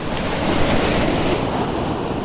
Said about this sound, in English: So I'm just going to point it straight at the waterfall